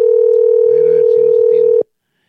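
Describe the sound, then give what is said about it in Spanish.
A loud, steady telephone tone from an outgoing call holds for nearly two seconds, then stops abruptly. A faint voice runs underneath it. “vamos al contacto telefónico ya con el gerente Jaime Luis Almerco. Le estamos llamando.”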